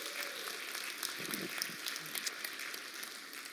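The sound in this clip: An audience at a morning Mother's Day gathering applauds the moms in the room, a steady, faint patter of many hands clapping that holds evenly throughout.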